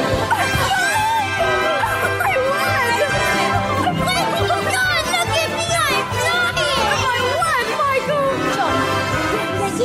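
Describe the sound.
A show tune from a singer's stage version of Peter Pan plays, with bright sung melody lines over dense accompaniment and lively children's voices, laughter and chatter woven through, continuous and full for the whole stretch.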